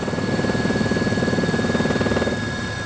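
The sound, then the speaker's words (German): A helicopter flies over Malta, its rotor chopping in a steady, even rhythm over a constant engine whine. The sound stays loud and continuous throughout. “Fennec hatte allerdings die Gelegenheit benutzt, mir per Hubschrauber halb Malta aus der Vogelperspektive zu zeigen.”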